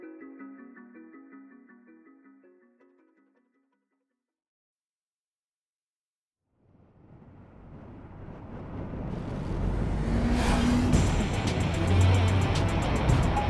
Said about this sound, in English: The Pacific Coast Highway was built for this 75 Corvette Stingray, and the vet flew.